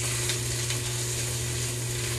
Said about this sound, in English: you get all those spices mixed up, all that garlic mixed in, start to get some of that oil incorporated into your tomato paste. You just want to keep moving that around the pan.